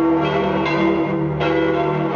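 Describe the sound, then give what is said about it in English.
Church bells ring at the Vatican after a papal election, their sustained metallic tones overlapping in a steady, continuous peal with no talk. “First, there was smoke. Then there were bells.”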